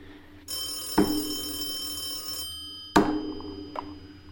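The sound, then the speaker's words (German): A telephone bell rings at home in two long, bright metallic bursts, each opening with a dull thunk, and another short knock follows near the end. “Das ist unser Telefon.”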